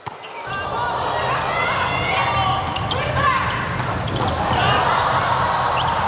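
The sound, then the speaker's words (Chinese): A volleyball player bounces the ball on the court before serving during a match. A few dull thuds sound over steady crowd noise. “庄宇山来发球”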